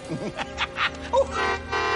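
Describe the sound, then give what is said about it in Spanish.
A car horn honks, belonging to a gangster's car. Shorter blasts come first, then a steady, sustained blare holds through the second half. “Aquella bocina era inconfundible. No podía ser sino la del coche de Sykes, el malvado mafioso a quien Fagin”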